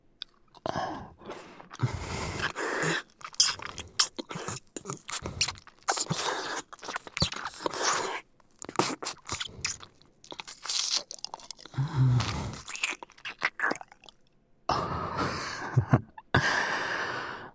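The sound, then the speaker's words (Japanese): Wet slurping mouth sounds come in many irregular, close bursts with short silent gaps between them. “ジュルジュル音立てられんのやだ。”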